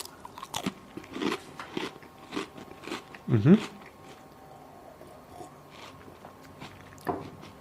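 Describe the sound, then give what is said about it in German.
Someone bites and chews a butter spekulatius biscuit taken with warm mulled wine, making a series of crisp crunches at uneven intervals, the loudest near the middle, then quieter chewing with one last crunch near the end. “Weil wir hier in Süddeutschland sind, will ich mal aus wissenschaftlichen Gründen probieren, ob der Glöck auch mit Butterspekulatius schmeckt.”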